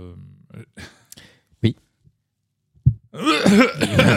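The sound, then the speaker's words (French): Coughing fits after a Doritos chip went down the wrong way: a few harsh, spluttering coughs in short bursts separated by pauses, then a person starts talking. “Ah, c'est le Doritos qui est mal passé.”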